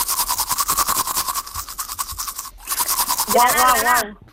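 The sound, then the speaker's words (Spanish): Brushing teeth with a toothbrush gives many quick rhythmic scrubbing strokes. They break off briefly near the middle, then resume, with a voice talking over the final stretch of brushing. “Sí, señor, se está cepillando los dientes.”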